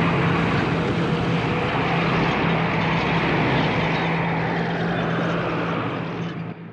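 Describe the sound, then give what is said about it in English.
Military vehicle convoy crossing the Sahara in gusty wind, heard as a dense, continuous roar of engines and blowing air that holds steady before easing off in the final moment. “The convoy continues across the Sahara, the gusty wind throwing up clouds of swirling sand, creating a dense mist over the military vehicles.”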